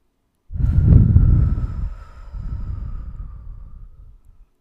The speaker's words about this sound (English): let's just do a deep breath in and out.